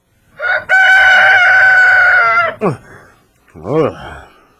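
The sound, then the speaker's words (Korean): Rooster crowing at a small mountain temple: one long, loud, sustained crow, then two shorter sweeping calls after brief pauses. “닭이 우는 거 보니까 벌써 아침이 됐구만. 아, 그래서 여긴 절인데 왜 닭이 우는 거야?”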